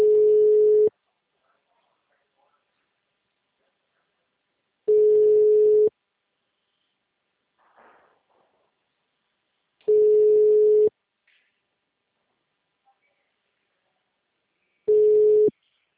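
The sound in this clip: Telephone tone after a dropped call: a steady mid-pitched beep sounds four times, each about a second long, separated by even gaps of silence.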